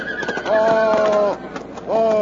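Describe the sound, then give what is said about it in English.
A horse whinnies among mounted soldiers meeting a tank crew. Two drawn-out, tonal neighs come in bursts, loud and wavering, with voices and hoof sounds mixed in. “Couldn't they teach you guys how to ride a horse?”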